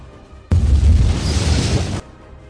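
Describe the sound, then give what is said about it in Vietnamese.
A thunder-like booming explosion sound effect marks two fighters' colliding palm strikes, bursting in suddenly as a loud, deep roar that holds for about a second and a half before cutting off. “Trong tiếng nổ ầm vang lên như sấm, y loạn choạng lùi lại một bước”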